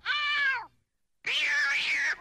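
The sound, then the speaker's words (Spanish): A cat meows twice as it is grabbed by the neck: a short tonal cry that bends downward, a brief silence, then a longer, harsher and louder yowl. “Edgar buscó un cuchillo. Se acercó al gato por la espalda. Lo agarró por el cuello y...”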